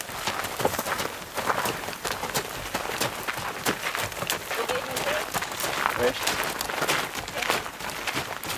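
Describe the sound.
Hooves clip-clop steadily as horses walk along a trail, riders in the saddle and two pack horses carrying luggage. The quick, irregular hoof strikes run throughout, with voices also present.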